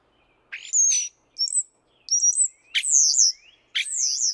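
European starlings calling in five separate bursts of squeaky, whistled chirps with quick sliding notes, each phrase lasting under a second and clear against silence.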